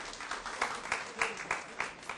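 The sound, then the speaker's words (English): A small round of applause for a child at a Christmas gathering: about six evenly spaced, crisp claps with a light wash of noise between them. “Yeah, a little round of applause for Jeffrey. There we go.”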